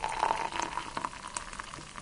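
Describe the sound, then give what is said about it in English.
Boiled water poured from a kettle into a cup of nettle tea, making a soft, steady trickling splash that lasts about two seconds and stays fairly faint. “The kettle's boiled now, so let's pour my tea.”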